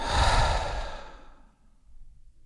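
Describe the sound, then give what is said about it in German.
A deep breath taken during a guided breathing exercise, drawn in through the nose and let out through the mouth: a loud breathy rush that fades away, then softer, quieter airflow with no talking. “Atme einmal tief durch die Nase ein, tief durch den Mund aus.”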